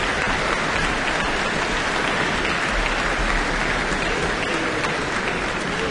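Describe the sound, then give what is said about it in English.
An enthusiastic audience applauds a concert by the Auckland Philharmonia after the Organ Symphony in the Auckland Town Hall, with dense, continuous, even clapping that stays loud throughout. “And she's got the orchestra on their feet again. The Auckland Town Hall audience is very, very enthusiastic tonight.”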